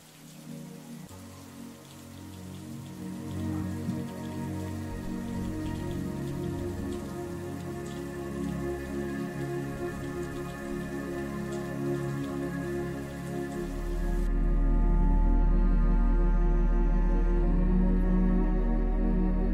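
Steady rain falls as a dense, continuous hiss of drops that stays even throughout, then swells louder with a deep low rumble over the last few seconds.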